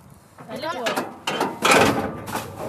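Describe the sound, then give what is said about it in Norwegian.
A waste container hatch is opened and rubbish thrown in by fourth-graders at a school in Fredrikstad, giving clunking, sliding mechanical sounds, with talk over them. “Vi trykker der helt til det står det der, så åpner vi den her. Og så kaster vi søpla oppi.”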